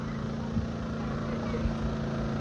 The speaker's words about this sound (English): That's pretty much our menu right here. They're running on a 3600 watt generator.